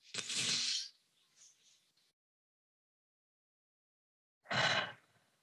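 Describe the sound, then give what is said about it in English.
Deep breathing, in and out: two breathy rushes of air separated by a pause of a few seconds, each fairly loud and lasting under a second. No speech is heard. “Notice your breath. Take a breath. I'll do it with you.”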